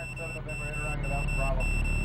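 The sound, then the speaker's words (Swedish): Spacecraft computer alarms from an overloaded onboard guidance system, a set of steady, high electronic warning tones. The tones sound continuously with short regular breaks, layered over a low constant rumble. “Mitt i allt detta tjuter dessutom flera larm. Datorn skriker att något är fel på systemet ombord.”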